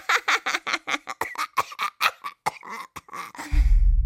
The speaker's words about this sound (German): Federklaues Gelächter ging in rasselndes Husten über.